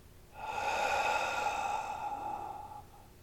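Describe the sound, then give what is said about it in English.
A person takes one long, deep breath during a guided throat chakra meditation, heard as a soft, drawn-out breathy exhale with a faint voiced tone that swells over about two seconds and then fades. “take a breath into your throat, into the energy center of your throat chakra itself, and let it go.”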